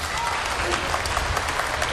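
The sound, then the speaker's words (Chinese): Audience applause at a stage comedy performance, a dense, steady wash of clapping hands that stays even and loud for the whole stretch. “这么着，观众鼓掌”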